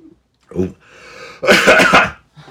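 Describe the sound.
A person clears their throat: a short low grunt, then a longer, loud, harsh rasping burst, ending with the start of another brief catch.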